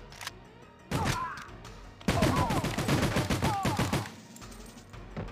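Video-game gunfire in a shooter mission against terrorists: one early shot, then a dense, rapid fusillade of loud, crackling shots that continues for about two seconds before stopping.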